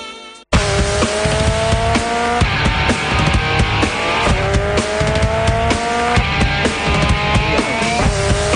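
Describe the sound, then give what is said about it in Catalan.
New-generation go-karts race on fresh asphalt at an indoor karting track in Barcelona. Loud, buzzing engines repeatedly rise and fall in pitch as they rev and ease off, with occasional tyre squeal and no talk. “Ja sonen els motors.”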